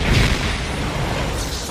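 Bomb explosion sound effect for a comedy sketch: a loud, broad blast with heavy low rumble at the start, rolling into a steady roaring wash for under two seconds.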